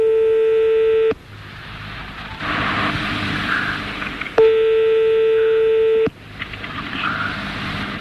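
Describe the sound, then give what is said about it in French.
Telephone ringback tones sound while a call to the French directory number 12 is placed. Two long, steady mid-pitched rings are separated by a few seconds of quiet line hiss. “On y va, on appelle le 12.”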